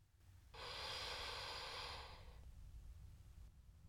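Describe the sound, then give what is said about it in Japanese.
A slow, faint breath during a guided breathing exercise: a soft airy rush that lasts about two seconds, then fades into quiet low background noise. “ふーっと吐いて、すーっと吸って、”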